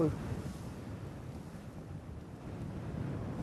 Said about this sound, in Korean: 드디어 사하라 사막에 첫 발을 내딛습니다. 이야. 움직이는 거, 바람 날리는 거 보이시는 거예요?